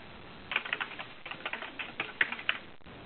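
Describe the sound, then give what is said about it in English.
Notes being typed on a computer keyboard: faint, irregular bursts of keystrokes clattering for a couple of seconds, then stopping. “I can type it here in the notes, so if you give me a second.”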